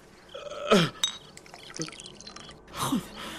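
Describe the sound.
Water is poured for drinking as a mother hands it to her son, with liquid splashing and trickling sounds, a few louder gurgling bursts and drips, over a faint background.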